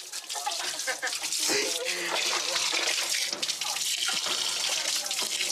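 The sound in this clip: Tap water runs as someone washes, a steady bright splashing hiss that fills the whole stretch at an even level with small flutters.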